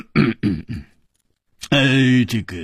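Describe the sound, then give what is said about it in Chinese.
Heavy cough voiced by a storyteller: three short, rough throaty bursts, then a brief pause before a longer voiced, throaty sound. “秋思王立刻重重的咳嗽了一声”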